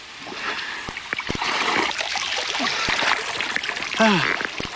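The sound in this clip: Divers climbing out of the water after a dive make scattered splashes and drips among voices.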